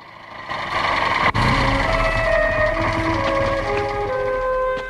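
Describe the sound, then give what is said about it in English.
A motorbike engine drones as the bike rides toward two men in rocky desert terrain in the evening, with steady tonal harmonics that shift in pitch and a single sharp click partway through. “A motorbike rides towards them.”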